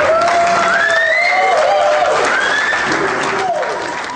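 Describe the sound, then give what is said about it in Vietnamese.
Crowd applause after a dart knocks another dart from the bullseye in a dart-throwing contest: dense, steady clapping with tonal voices rising over it, holding loud and then easing off toward the end. “Hiện trường lặng ngắt giây lát, bỗng nhiên tiếng vỗ tay vang lên.”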